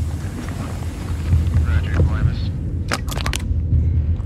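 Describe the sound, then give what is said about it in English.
Low, cycling rhythmic thumps like a metallic heartbeat, built from subway clunks and thumps, throb under a rumbling wash of noise, with a few sharp clanks near the end. “It's on this cycling rhythmic beat. And as it goes along, we introduce low rhythmic thumps that almost sound like a heartbeat that's metallic, which are actually like subway clunks and thumps.”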